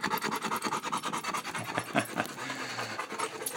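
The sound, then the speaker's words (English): Dog panting rapidly and rhythmically, many quick breathy huffs in a steady stream that continues throughout, with no talk. “That's Kona panting.”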